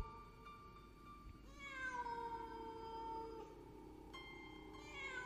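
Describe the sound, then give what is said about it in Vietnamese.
A cat meows a few times, long drawn-out harmonic cries that sag slightly in pitch, moderately loud over a steady low background hum. “Con mèo ấy bây giờ đang đứng ở một góc xa xa. Nhìn tôi, sáu con mắt đã trở nên xanh lè lè lại. Sau đó nó kêu lên mấy tiếng rồi lẳng lặng quay lưng bước đi một cách thong dong.”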